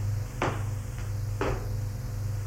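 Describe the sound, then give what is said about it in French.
A door handle clicks and an unlocked bedroom door opens: two sharp clicks about a second apart, with a fainter tick between them, over a steady low hum. “La porte, la poignée. La porte. Il fait le geste instinctif d'ouvrir la porte”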